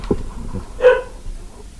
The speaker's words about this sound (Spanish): en estos momentos está ladrando mi perro, mira, escuchémoslo.